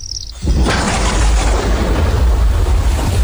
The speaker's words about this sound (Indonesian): Ini udah masuk ke rumah airnya.